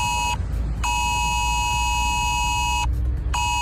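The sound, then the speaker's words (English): A phone sounds an emergency text alert: a loud, steady electronic tone with bright overtones, broken by two brief gaps, over a low rumble. “Ireland could be getting an emergency text alert system which would warn us about things like extreme weather.”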